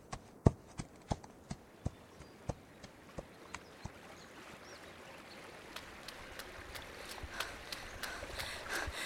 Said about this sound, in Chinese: 行，娟儿，赶紧把咱们家马牵出来。